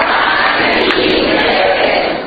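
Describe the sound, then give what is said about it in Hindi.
Applause from the audience at a Jain community gathering: a steady, dense rush of clapping, fairly loud and even, easing off slightly at the very end. “देखो तालियों से ही समझ में आया, पर तालियां थोड़ी धीमी बजी”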